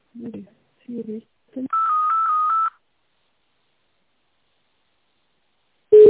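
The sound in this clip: Telephone tones while a call is transferred: a few short, low blips, then about a second of pulsing, high electronic tone, silence, and a brief tone cutting in at the very end.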